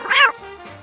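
A sleepy cat, just woken, gives a short, nasal meow that rises and then falls, followed by a softer, lower trailing sound.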